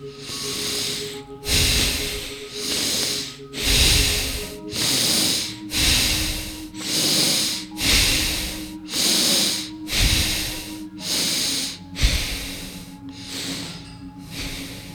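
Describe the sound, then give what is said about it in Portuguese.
Forceful, rhythmic breath-of-fire breathing, with rapid inhaling and exhaling in hissing, snort-like bursts repeating steadily about once per second with no talk over them. “eu costumo usar a técnica da respiração de fogo que é inspirar e expirar rapidamente.”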